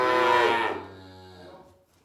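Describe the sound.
A calf mooing for its mother after being unloaded from a wagon: one long, loud, harmonic moo that holds strongly at first and then trails off softer toward the end.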